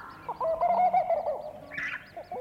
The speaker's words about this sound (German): Jetzt gerade, da ich dies schreibe, fängt dieser Vogel wieder an, der mich zum Wahnsinn treibt. Er ruft. Stundenlang,